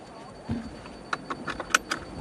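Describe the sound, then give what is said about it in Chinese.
A seatbelt is fastened in a driverless car. A few soft rustles and clicks lead to a sharper latch click, all quiet. “第一件事是要系好安全带。”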